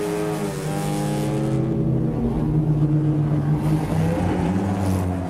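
Car engine droning steadily while a family drives, a harmonic hum whose tones shift gently up and down throughout, with no voices.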